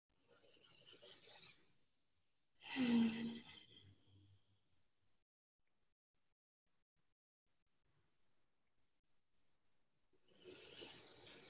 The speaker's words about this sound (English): So I start to breathe, just letting the breath move through my body and letting my body flow a little bit with my breath.